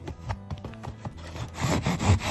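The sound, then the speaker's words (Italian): A knife saws through a tough cardboard box during an unboxing, making a run of rough, scraping rubs that come in short uneven strokes and grow louder and denser toward the end. No voices are heard. “Cambio di coltello. Taglio tu incluso il contenuto.”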